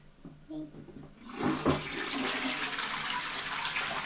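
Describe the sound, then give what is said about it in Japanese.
A toilet flushes with a sudden surge of rushing water that then settles into a steady, fairly loud wash of refilling water. “じゃあちょっと流しますよ。音うるさいですよ。”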